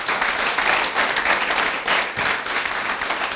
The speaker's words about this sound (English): Hey, let's give the Lord a big hand. Come on.